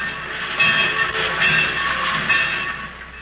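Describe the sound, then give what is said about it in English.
Trains in a busy railroad yard, used as a radio drama sound effect: a continuous rumbling hum of rolling stock with faint metallic squealing tones, swelling slightly at intervals. “Everywhere you can hear the busy hum of industry, in the sawmill, in the railroad yard,”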